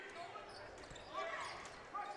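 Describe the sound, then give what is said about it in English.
A basketball dribbled on a court during a fourth-quarter game, giving faint dull thumps under a steady wash of crowd noise. “He's dribbling near midcourt.”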